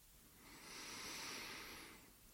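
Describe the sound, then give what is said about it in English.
One deep breath taken during a guided relaxation, a soft, broad airy rush that swells gently and then fades, heard alone without any talk. “Now let's take one more deep breath together.”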